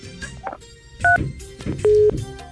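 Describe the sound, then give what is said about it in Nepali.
Electronic telephone tones as a call is cut off midway: a short high beep pair, then a longer lower steady tone, over faint muffled background sounds. “कार्यक्रममा कोही साथी आउनु भएको थियो तर पनि कुरा गर्न पाएन, फोन बिचैमा काटिएको छ।”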